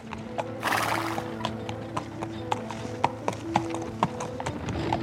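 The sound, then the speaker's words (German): A horse pulling a hansom cab clip-clops as the cab drives off briskly toward the river, with a short whinny near the start followed by crisp, regular hoofbeats that grow more pronounced toward the end. “Und nachdem er sein Fahrgeld eingesteckt hatte, wendete er das Pferd und fuhr rasch dem Fluss zu.”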